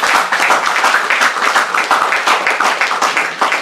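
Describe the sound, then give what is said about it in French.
An audience at a church gathering applauding to cheer people on: dense, continuous clapping that holds steady at a fairly loud level for the whole stretch. “les acclamer, pour les encourager.”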